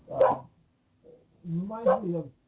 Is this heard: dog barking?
yes

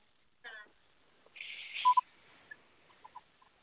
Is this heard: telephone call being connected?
yes

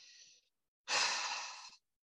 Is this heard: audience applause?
no

